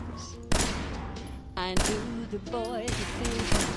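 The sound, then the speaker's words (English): Gunfire in a video game: several sharp, loud shots break through a sustained layer of noise, with no clear pattern between them. “Who else is shooting?”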